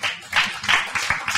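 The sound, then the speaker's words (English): Audience clapping for a volunteer at a faith-based talk: a short burst of brisk hand claps. “A clap for Dalla.”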